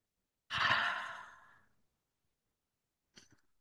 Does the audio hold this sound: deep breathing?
yes